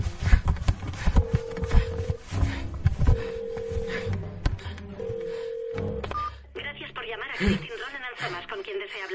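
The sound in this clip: A mobile phone dials a number from inside a buried coffin, sounding three sustained electronic tones over muffled shuffling and low rumbling.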